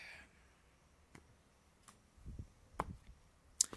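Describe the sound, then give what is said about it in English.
Soft taps and clicks from a deck of cards being cut by hand: a few faint, brief sounds spread across otherwise quiet moments, with a slightly heavier cluster of low taps near the end. “I'm just cutting the deck.”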